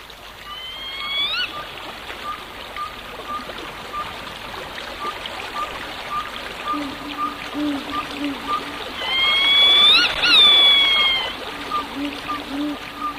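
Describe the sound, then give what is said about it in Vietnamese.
Steady trickling and babbling of a stream runs throughout at a moderate level, joined by two brief rising tonal calls, one near the start and one toward the end. “Vẫn yên lặng như tờ, chỉ có tiếng nước róc rách, đôi lúc tiếng róc rách như liệm đi rồi tắt hẳn, nhưng một lát sau lại thấy vẳng lên như để rì rào mãi mãi không thôi.”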